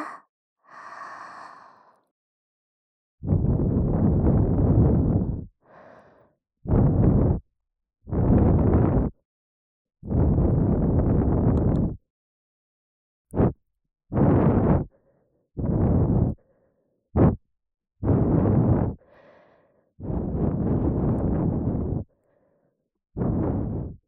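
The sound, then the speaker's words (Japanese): Gentle, warm breaths blown softly into the left ear: many long, airy exhalations, each a broad hushed whoosh, separated by silent pauses, with a few short puffs among them. “左耳を温めるように優しく吐息を送り込みますね。”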